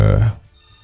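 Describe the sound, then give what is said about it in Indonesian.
A telephone rings in a radio studio, a loud, buzzing burst lasting about a third of a second before cutting off into near silence. “Sekaligus kita angkat telepon nih di 812878.”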